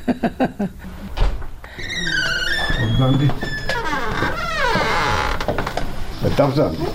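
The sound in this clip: A room door in a home for the elderly creaks as it moves, giving drawn-out squeaky creaks that waver up and down in pitch over a few seconds, with some low thuds and background noise around them.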